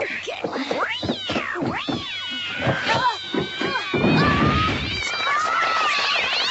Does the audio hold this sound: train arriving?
no